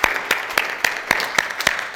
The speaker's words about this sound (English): let's give him a clap offering.